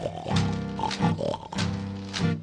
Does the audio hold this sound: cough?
no